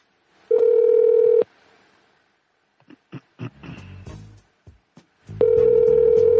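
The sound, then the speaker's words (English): Telephone tones while dialing a pharmacy's automated phone line: a loud, steady electronic tone, then a few soft clicks and handling noises, then the same steady tone again. “All right, I'll hang up and dial 4.”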